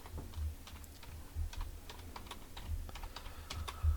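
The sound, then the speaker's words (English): Typing on a computer keyboard: a rapid, uneven stream of many light key clicks, steady throughout, with a soft low thumping underneath. “Type it in.”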